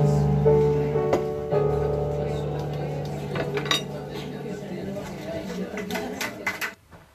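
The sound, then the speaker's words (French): Cutlery and dishes clink at a dinner party. Many light, scattered metallic taps and plate knocks run throughout, fairly soft, beneath people talking together. “Bien voilà, par les bruits de couvert, puis quelques discussions.”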